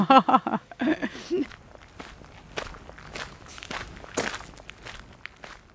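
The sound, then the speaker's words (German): Footsteps walk along narrow paths between Russian allotment gardens, a steady series of soft crunching paces, with a voice heard briefly at the start. “Ich gehe durch die engen Wirtschaftswege zwischen den einzelnen Russengärten”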